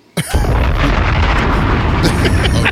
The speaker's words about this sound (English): Bombs!